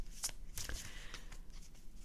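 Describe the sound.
Tarot cards being shuffled during a card reading: a faint, soft riffling with many quick papery flicks in a steady stream, with no talk.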